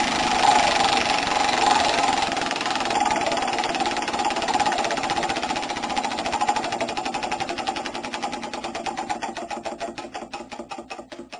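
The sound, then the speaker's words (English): A tattered, graffitied chocolate wheel spins, its pointer ticking in a rapid stream of clicks that gradually spread out and slow as the wheel loses speed, fading toward the end. “So I've got this tattered now graffitied chocolate wheel that we spin. Got a top five topic. We've got about 10 on there. Spin around, see what comes up.”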